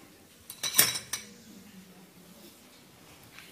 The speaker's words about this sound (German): Wir werden jetzt da unsere Macaroni dabei kochen und das Ganze dann mischen.